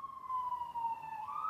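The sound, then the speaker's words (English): Emergency vehicle siren passing outside, a loud, steady wailing tone that glides slowly downward and then swings back up near the end, with no talk over it. “I'll wait for your siren. Somewhat appropriate. Perfect timing.”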